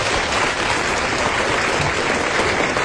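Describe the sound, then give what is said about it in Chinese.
Steady applause from the audience at a Chinese crosstalk comedy performance, a dense and even wash of clapping that holds at a constant loud level throughout. “大家给点掌声。”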